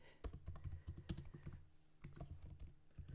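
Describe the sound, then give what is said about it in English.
Typing on a computer keyboard: a dense run of quick, fairly loud clicks in an uneven rhythm, with a brief lull near the middle before the keystrokes pick up again. No voices. “I've been doing all my typing so far. You do a bit of a type.”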